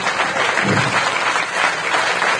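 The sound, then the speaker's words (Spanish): A crowd applauds the hosts at the close of an activist gathering. The clapping is loud, dense and steady throughout, with no talk. “Gracias, hermanos de la Que Huelga, un aplauso para ellos.”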